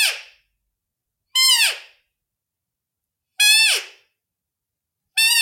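Roe doe squeaks imitated with a Blatter deer call: four short, high, bright squeaks, each dropping in pitch at its end, separated by silent gaps.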